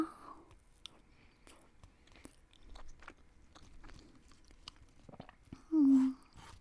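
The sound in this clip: Chewing and eating a honey bun: faint, soft mouth noises and small bites repeating irregularly.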